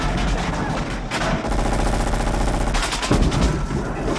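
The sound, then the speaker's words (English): Automatic rifle fire from police in an action film scene: loud, rapid bursts of gunfire in dense clusters of sharp cracks that run almost continuously, with no voices heard. “Police with automatic rifle fire in Nakatomi.”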